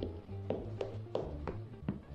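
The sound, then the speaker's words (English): Knocking on a door: five sharp, separate raps at uneven spacing over about two seconds, fairly faint over a steady low background hum. “There was a knock on the door.”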